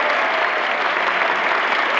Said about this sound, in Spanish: Buddy se levanta del piano para recibir los aplausos.